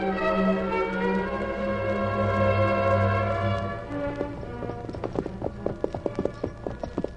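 Hooves of two horses clip-clop as their riders ride off, a quick, steady run of many sharp hoofbeats that begins partway through after a stretch of sustained music fades out.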